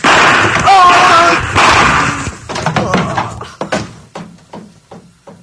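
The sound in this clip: Pistol shots in a Spanish-language radio drama, a short run of sharp, loud bangs following a frantic shouting voice, the reports quickly tapering off in loudness.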